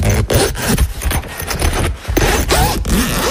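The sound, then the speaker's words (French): A camping tent's zipper pulled in a few quick, loud, rasping strokes, the metal teeth buzzing along the fabric with brief pauses between pulls, heard alone. “La fermeture éclair d'une tente de camping.”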